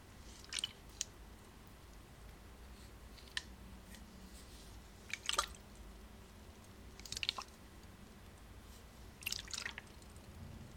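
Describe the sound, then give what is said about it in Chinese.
Water dripping: a few isolated drops and small wet clusters fall at irregular intervals, faint and clear against a quiet low background hiss. “对，是水的声音。”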